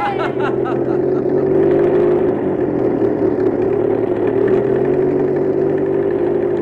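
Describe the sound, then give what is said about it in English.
Vehicle engine driving up an old mountain road, a steady mid-pitched drone that holds at an even level throughout without clear revs or gear changes. “Sam and the crew are driving up the old mountain road.”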